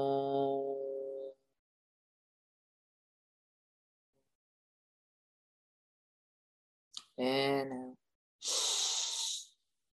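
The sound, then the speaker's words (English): A deep, breathy exhale during a yoga chant session, heard after a sung chant phrase, a long silence and a short spoken voice. “Inhale. Exhale.”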